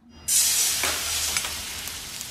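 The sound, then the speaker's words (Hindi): Chopped onion hits hot mustard oil for a mutton korma and bursts into loud, bright sizzling that holds steady, broken by a few small crackling pops, with no talk. “तो देखिए आप लोगों से बात करते करते तेल गर्म हो गया है और मैंने इसमें प्याज डाल दिया है”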